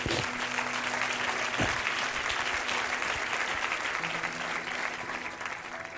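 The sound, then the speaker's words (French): Congregation applauding the word of God during a church service: dense, steady clapping from many hands, sustained throughout and easing slightly toward the end. “Oui, tu peux acclamer la parole de Dieu.”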